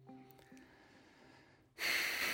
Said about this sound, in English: That was a deep breath.